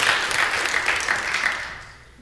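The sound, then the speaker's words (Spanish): Applause from a church audience during a Spanish-language sermon: a dense, steady wash of many hands clapping, holding for about two seconds and then fading away at the end. “Si da un aplauso, eso lo mire con ganas. Ok, no se cohiba.”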